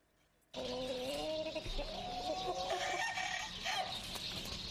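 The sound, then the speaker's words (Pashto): Fighting roosters crow and cluck on a fighting-cock breeding farm in Peshawar, Pakistan. Loud, overlapping crows and harsh clucks run continuously throughout. “قلنګیان جنګول کاروبار د هغه پیشه ده.”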